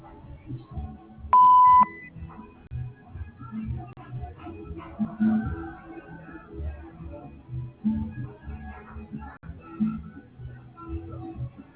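A single short electronic beep from an Entel voicemail line signals the start of recording, clear and steady, then gives way to a faint low murmur of background noise.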